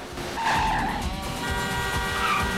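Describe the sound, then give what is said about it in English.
A car races at high speed along a highway, weaving through traffic and squeezing through a narrow gap between two large trucks; the engine roars continuously, loud and steady, with screeching tyres. “Dodge leads Piper through a narrow gap between two large trucks.”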